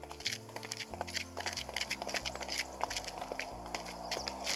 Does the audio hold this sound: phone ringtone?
no